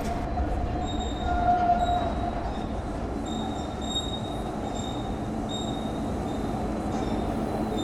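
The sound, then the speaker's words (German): A subway train runs on rails with a continuous, even rumbling roar, overlaid by thin, high wheel-squeal tones that come and go. No voices are heard. “Jetzt sind die ganzen Autos verschwunden und es fährt nun eine U-Bahn.”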